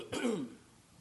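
A single throat clearing from someone troubled by allergies: a short, rough, fairly loud rasp lasting about half a second, then quiet.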